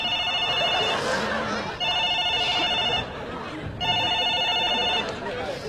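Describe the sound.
A telephone rings loudly in several long, bright, trilling bursts separated by short gaps.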